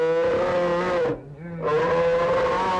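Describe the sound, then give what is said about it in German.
A human voice imitates bear growls, first a polar bear, then a brown bear: two loud, sustained, rumbling growls rich in harmonics, separated by a brief dip in sound. “Braunbären, Eisbären, Schwarzbären, sie klingen alle etwas anders. Der Eisbär so, der Braunbär so”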